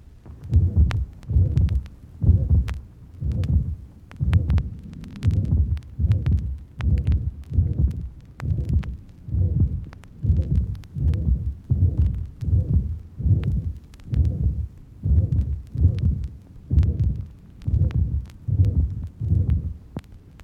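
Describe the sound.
Heart sounds carry a murmur of early mitral stenosis, mid-diastolic, recorded in the left lateral position after slight exercise. Many regular low thudding beats, roughly one per second, each trail a soft rumbling murmur, with no voices.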